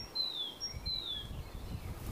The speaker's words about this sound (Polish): słyszycie, ptaki śpiewają, a tam gdzieś jakiś samochód z lodami dzwoni